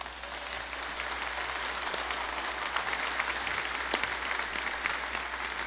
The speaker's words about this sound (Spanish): Entonces, si me están escuchando, por favor, un aplauso.